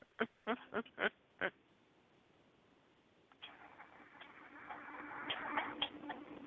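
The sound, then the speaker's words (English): An alarm clock gives five sharp, loud ticks at slightly uneven intervals. After a quiet pause, a nasal, honking, buzz-like alarm tone starts and grows louder toward the end. “I regret getting this alarm clock.”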